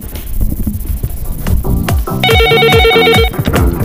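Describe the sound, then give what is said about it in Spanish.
An electronic telephone ring for an incoming call, a rapid warbling pulsed tone that fills the second half, over a low rhythmic background. “Vamos a atender la siguiente llamada.”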